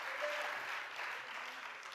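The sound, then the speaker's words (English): Congregation clapping together during a lively church service, a dense, steady wash of many hands beating at once, loud and unbroken for the whole stretch. “Everybody clap together.”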